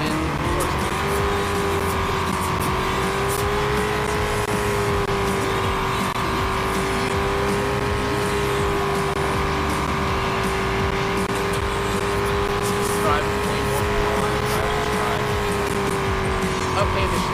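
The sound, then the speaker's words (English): A car driven in a video game gives a steady, even engine drone. Its pitch stays constant and its level stays flat from start to finish. “I'm driving to the home park.”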